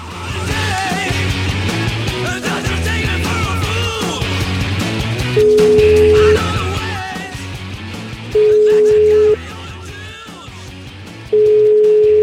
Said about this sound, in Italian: Sentiamo un po' se prega per me, chiamiamola, dai.